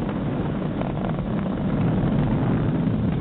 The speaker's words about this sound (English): M1D throttle down. We're throttling down to get ready for the period of maximum dynamic pressure. We're in the throttle bucket.